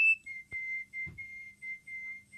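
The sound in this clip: A person whistles, imitating a small woodpecker's morning song: faint, steady, high-pitched notes in a few short phrases broken by brief gaps, with a couple of soft low thumps.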